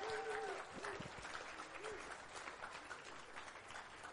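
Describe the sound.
An audience claps to welcome a speaker to the stage, steady applause from many hands, fairly faint, with brief vocal sounds near the start.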